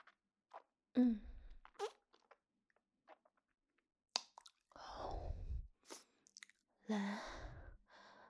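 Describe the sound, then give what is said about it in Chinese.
Soft chewing and biting of two small egg-shaped snacks eaten in one bite. Several faint, moist, crunchy bursts are separated by quiet gaps. “两个小蛋蛋，一口吃掉。”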